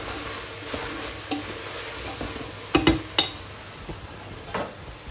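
Sweet potato goes into a frying pan with a few sharp clattering clinks and scrapes over a steady hiss of sizzling and stirring, with no talk.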